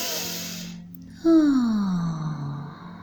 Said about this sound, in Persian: آگاهی رو میاریم به لحظه حال، به محیط اطراف، به صداها، و با یک نفس پرفشار